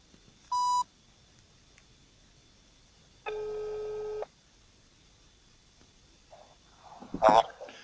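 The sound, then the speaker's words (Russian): Telephone call tones on a line to a contact: a short high beep, then one steady ringing tone lasting about a second. A brief burst of noise follows at the end. “Давай звоним.”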